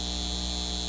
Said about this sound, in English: This is the sound of a data center taking your water and driving up your utility